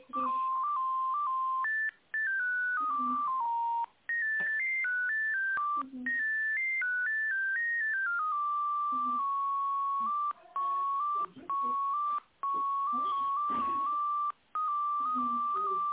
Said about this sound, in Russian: Звоню в организацию «Алло».